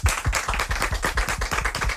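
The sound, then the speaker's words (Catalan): Applause from a small audience at an interview event, a loud burst of individual claps with a quick, slightly uneven rhythm and sharp attacks, heard alone without speech. “Que esteu preparats per fer de públic i fer molt d'aplaudiments? Sí. Anem a comprovar-ho. Un aplaudiment.”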